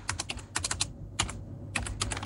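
Typing on a computer keyboard as an ID card number is entered on an online voter-registration lookup page: quick clusters of light clicking keystrokes in uneven bursts, separated by short pauses, with no voices.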